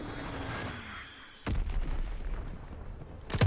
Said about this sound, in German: Hier ist nix. Oh, Bombe. Ich bleib mal hier drinnen.